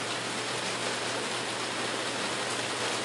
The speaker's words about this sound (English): It's raining beautifully in this day.